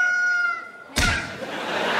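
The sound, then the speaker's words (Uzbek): A rooster crows in a village morning, a steady tonal call that breaks off when a loud thump hits, followed by a broad, sustained hiss. “Ertalab sizlarni xo'roz uyg'otadi.”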